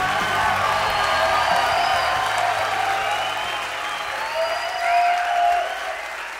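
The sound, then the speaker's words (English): Theater audience applauding as a five-piece band of young men takes the stage, with dense, sustained clapping mixed with scattered cheers and whoops, swelling slightly near the end. “What you are hearing is the sound of five young men taking the stage of the Majestic Theater at the Brooklyn Academy of Music on the evening of April 10th,”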